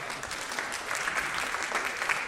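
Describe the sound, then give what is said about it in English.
A church audience gives polite golf applause after watching a bread-baking time lapse. The clapping is moderately soft, steady and evenly spread, with no voices rising above it. “You got some golf applause out of that.”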